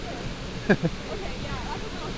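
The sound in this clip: Waves crash on the shoreline in a steady, roaring rush of water. A brief voice sound briefly rises above the noise.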